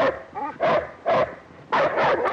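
A dog on a lead tethered to a pole barks as it chases a woman around it: a few loud, sharp barks in quick bursts, the last two close together, with a softer whine just before them.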